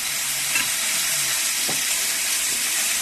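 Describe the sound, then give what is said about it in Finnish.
Meat sizzling as it fries in cooking oil on a griddle, a thick piece cooked well done. A steady, loud hiss runs throughout, with faint scattered crackles and no talk. “kun joudutaan kuitenkin käyttämään tätä ruokaöljyä tuohon, jottei se tarttuisi tuohon parilaan aivan kiinni, niin sitten joudutaan hiukan lisäämään vielä öljyä.”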